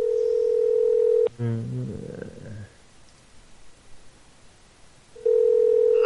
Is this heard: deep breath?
no